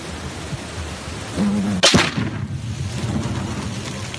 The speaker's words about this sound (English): The Arizona Star has new video showing an explosion at a border agent's gender reveal party that apparently sparked the 2017 sawmill wildfire.